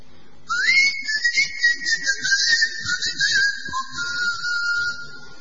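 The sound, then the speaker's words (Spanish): Whistled speech of an island's whistled language, used in place of talking: clear, piercing tones that open with a quick upward glide, hold a high, wavering pitch, and drop to a lower tone near the end. “La única característica de esta isla es que sus habitantes no hablaban, sino que silbaban.”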